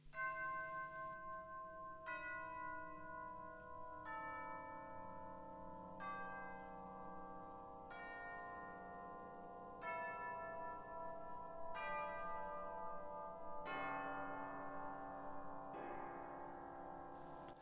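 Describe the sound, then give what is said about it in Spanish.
An orchestral piece from 1901 imitates church bells: slow, struck, bell-like chords land about every two seconds, each ringing out and fading before the next. “Vamos a escuchar otra obra más de Ives que tiene que ver con campanas. La compuso Ives en 1901 y se titula Desde los campanarios y las montañas.”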